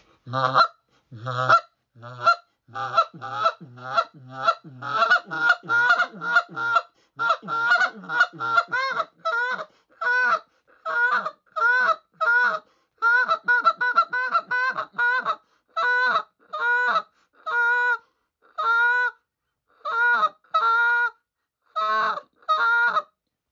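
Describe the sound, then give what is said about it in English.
An injection-molded goose call blown in a finesse-calling style for early-season goose hunting. It gives many short, honking clucks and calls in fast, irregular bursts that later spread into a looser cadence, with no voices. “everything that I'm trying to do is just, it's called finesse calling. And this, like I said, it's just my little, our new injected molded call.”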